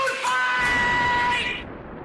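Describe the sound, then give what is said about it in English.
A man lets out a loud, sustained bellowing yell that holds steady for over a second, then cuts off into low background noise. “Two guys who get a little emotional when they hear John Belushi yell,”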